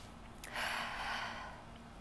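A single breath drawn in by a person, a soft airy rush that swells and fades over about a second. It is faint and heard alone, with no talking.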